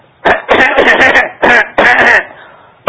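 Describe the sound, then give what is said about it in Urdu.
A voice imitates repeated coughing from a scratchy throat, giving a few loud, harsh, rhythmic bursts separated by short pauses. “کرتے تھے نا کھوں کھوں کھوں تو مریض کو ہر وقت گلے میں خراش ہو ہر وقت کھوں کھوں کر رہا ہو”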